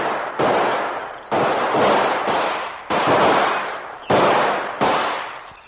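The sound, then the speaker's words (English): Gunshots are exchanged in a shootout: several loud, sharp cracks arrive at uneven intervals, each trailing off in a long ringing decay, with no voices heard. “both the savage and Kolo start shooting at each other.”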